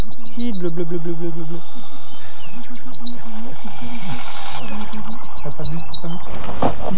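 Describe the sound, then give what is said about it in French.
Blue tit song with two to four repeated notes: a few short phrases of quick, high, repeated chirping notes, separated by pauses, over a low murmur of background sound. “Un mésange bleu. Une très commune aussi, mais très discrète. Elle fait toujours 2 à 4 notes répétées,”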